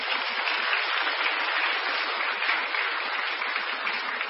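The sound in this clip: Audience applause: a steady, sustained patter of many hands clapping, even in level and unbroken from start to end.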